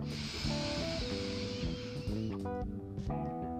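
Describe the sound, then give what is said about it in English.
A deep inhale through the nose during a guided breathing exercise hisses softly for about two seconds beneath gentle, sustained musical tones. “And again, inhale.”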